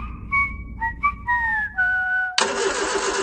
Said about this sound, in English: your ute's been making that noise since Easter, and the trailer's not far behind.